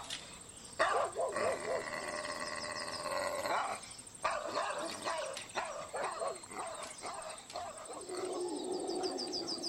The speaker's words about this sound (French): les aboiements furieux s'éloignaient